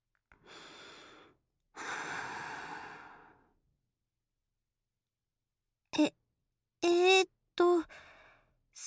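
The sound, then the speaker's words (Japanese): Deep breathing from someone trying to calm down: two long, airy breaths, then a few short voiced sighs and breathy murmurs after a pause, soft and with no talking. “深呼吸。”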